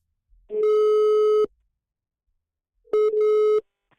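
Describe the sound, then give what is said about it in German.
Telephone line tones while a call is placed: two steady electronic beeps separated by silence, the first about a second long and the second shorter. “Ich habe Christian nochmal angerufen.”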